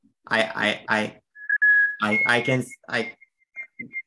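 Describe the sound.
A person whistles an imitation of a white-throated sparrow's song: a sustained high, pure note, then higher held tones and a few short faint notes, partly under people talking before and after.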